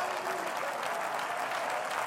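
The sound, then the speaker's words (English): A church audience claps their hands during a worship service: steady, dense applause that holds at an even level for the whole stretch, with no single claps standing out and no clear voices. “Go ahead and clap your hands even though you're not Pentecostal.”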